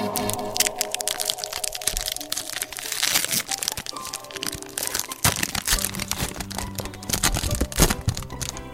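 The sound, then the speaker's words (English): Crinkling and tearing of a trading card pack's wrapper, a dense stream of crackles and crunches running for about nine seconds with no talk. “Yeah, I have 8 packs of cards here, so I believe I shall open one.”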